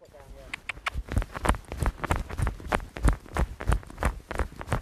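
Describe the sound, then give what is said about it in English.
A mare's hooves trotting: a long, steady run of many sharp, evenly spaced beats at a brisk, regular rhythm, fairly loud throughout. “what do you want me to trot her up or? Yeah. Okay. If I trot her down that.”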